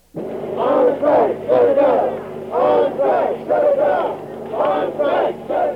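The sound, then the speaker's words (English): Striking students at a San Francisco college campus shout and chant in unison, demanding the campus be shut down. Loud, rhythmic bursts of many voices repeat again and again. “This is the sound of dissent. Students on strike at San Francisco State College, demanding the campus be shut down.”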